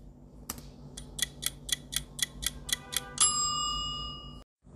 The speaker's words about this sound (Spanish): Ya sonó el cronómetro.